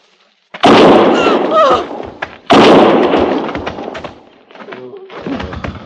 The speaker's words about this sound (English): One more step, and I'll fire.